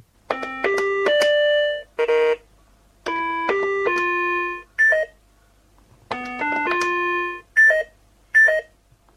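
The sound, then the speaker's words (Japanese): Electronic beeps from a treasure-hunting game toy: short melodies of stepped, clear synthetic tones, repeated three times, each followed by one or two quick bright beeps, with silence between. “2つが合っていたらピコ音が2回なります。不正解音が鳴った時は何も良いことはございません。この音を参考に宝物の隠された場所を突き止めていきます。”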